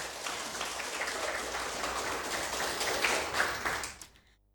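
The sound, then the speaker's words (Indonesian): Applause for Team A during a school quiz: dense, steady clapping that holds for about four seconds before quickly fading out. “beri tepuk semangat dulu untuk Regu A”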